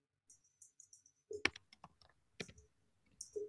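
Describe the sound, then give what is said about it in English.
Typing on a computer keyboard: quick bursts of key clicks separated by short pauses, crisp and fairly faint, with no voices. “Let me type in here real quick because you know y'all don't get to see that.”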